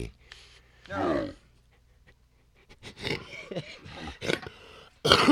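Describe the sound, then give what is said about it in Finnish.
A person coughs and clears their throat in a few rough, throaty bursts separated by quiet gaps, with a loud final burst at the end. “Vähän yskää.”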